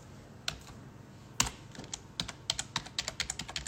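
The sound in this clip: Crisp keystrokes on a computer keyboard as a goods tariff code is typed into a customs declaration: a few sparse clicks, then a quicker run of many sharp taps, with no talking.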